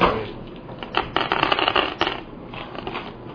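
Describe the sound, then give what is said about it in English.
Dice rolled across a table during a tabletop role-playing game: many small, rapid clicks and rattles in a busy clatter that swells and then thins out. “I could roll them, they'd all be like sixes. And they are. Look at that. Yeah, you know DM dice.”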